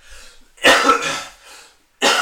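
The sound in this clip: A few sharp, loud coughs burst out with short pauses between them. The last one breaks in abruptly after a quiet gap, and no talk is heard.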